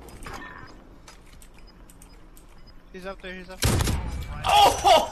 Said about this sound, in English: He had a clutch moment in Call of Duty's newest battle royale, Warzone. And in the clip, he manages to revive his partner in the final moments, then get the winning shot with an impressive snipe.